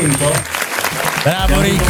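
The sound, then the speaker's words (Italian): Studio applause for a guest on a radio station, a short, lively burst of clapping with voices talking over it. “Facciamo un applauso a Ricky Valza, così andiamo i saluti.”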